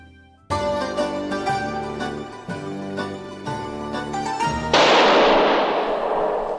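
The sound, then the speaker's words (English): A gunshot sound effect: a single loud, sharp blast cuts in after a few seconds of piano-like music and rings out in a long, noisy decay. “That was the shot that killed Paul Citrone.”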